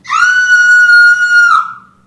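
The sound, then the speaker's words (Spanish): A single loud, high scream holds a steady pitch for well over a second, then drops and trails away. “¿Qué fue eso? Un grito, idiota.”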